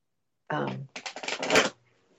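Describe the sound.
A deck of cards being shuffled on a lap in a bathroom: a short voiced sound, then a crisp, fluttering riffle of about a second made of rapid papery clicks that builds and stops abruptly.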